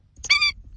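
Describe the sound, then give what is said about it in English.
An Indian skimmer, the orange-billed water bird of South Asia, gives one short, harsh, nasal call. The brief yelp lasts a fraction of a second over a faint low rumble. “That's the sound of the Indian skimmer, a unique orange-billed water bird native to South Asia.”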